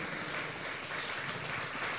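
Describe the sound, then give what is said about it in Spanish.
An audience applauds in praise of the Lord during a church service. The clapping is a steady, dense, crackling wash with no distinct individual claps, fairly faint throughout. “Denle un fuerte aplauso al Rey de Reyes y Señor de Señores”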